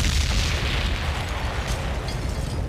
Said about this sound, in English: Let me drop a bomb for that one.